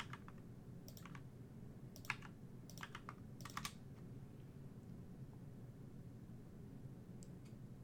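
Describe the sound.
Typing on a computer keyboard during a tabletop game session: faint, brisk clusters of clicking keystrokes in short bursts, followed by a long lull and then a couple of final taps, heard alone without talk over a steady low hiss.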